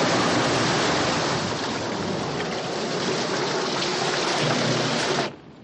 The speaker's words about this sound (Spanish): El agua inunda la bodega arrastrando a Miller.